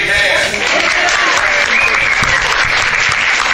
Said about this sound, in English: Make some noise for her once again, man.